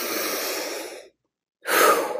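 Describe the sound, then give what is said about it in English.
A deep breath taken in a guided calming moment: a long, airy rush of breath lasting about a second, a short silence, then a second breathy rush that starts abruptly. “Let's just take a deep breath in with that, okay?”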